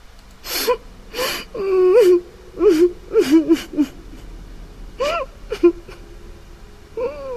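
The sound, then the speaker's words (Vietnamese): Crying from someone in a bathroom: uneven bursts of gasping sobs, wavering whimpers and moans, some sliding in pitch, loud and wordless with short pauses between them. “Chị nghe thấy tiếng khóc mà không thấy tiếng trả lời.”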